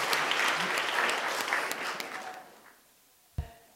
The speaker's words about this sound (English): I especially want to give a huge round of applause for Miss Bridget Showalter for putting it all together.